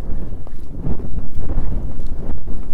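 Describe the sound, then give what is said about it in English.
Wind buffets the microphone in loud, low, rumbling gusts that swell and ebb irregularly. “And the wind. And the wind.”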